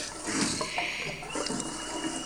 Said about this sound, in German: Da sprudelt ein Quell aus silbernem Schnabel.